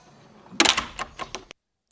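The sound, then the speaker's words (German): A house door falling shut: a loud thud followed by a few quicker rattling knocks, then an abrupt cut to silence. “Da fällt die Tür zu.”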